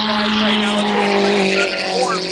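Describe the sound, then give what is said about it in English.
Formula V race cars race side by side through a corner in an SCCA road race at Buttonwillow, their engines a loud, sustained, buzzing drone with several layered pitches shifting slightly throughout. “we have a change for the lead in Formula V as Manthe now is going to give it up to Edwards. Not sure as they go around side by side around Sunrise.”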